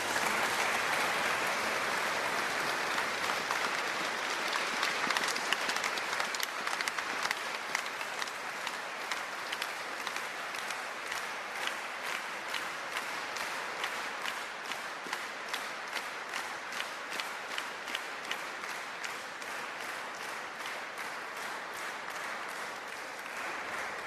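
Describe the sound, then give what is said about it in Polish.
Sustained applause from a crowd of pilgrims thanking the parishioners of a village parish, a dense wash of clapping that settles into steady, rhythmic clapping in unison for many beats. “Pragnę podziękować wszystkim parafianom Ciepielowa, a my jako pielgrzymi najlepiej umiemy dziękować poprzez oklaski, więc”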